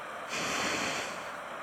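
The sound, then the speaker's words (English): A single soft breath in and out, an airy rush that swells and then fades, quiet and alone, during a guided breathing meditation. “Just breathe. Inhale and exhale. Breathe in the air.”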